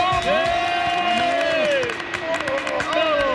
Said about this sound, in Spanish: todos vamos a darle un fuerte aplauso por ese